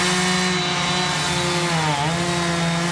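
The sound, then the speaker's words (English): Chainsaw cutting up a huge oak tree that fell on about a dozen cars at a shopping center in Woodland Hills. The engine drones loud and steady throughout, its pitch dipping briefly midway as the chain bites into the wood, then recovering. “if you live in the Woodland Hills area, you know that sound because crews had to spend part of the weekend cutting up a huge oak tree that fell on at least a dozen cars at a shopping center.”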